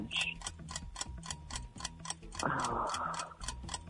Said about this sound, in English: Oh, there's the timer.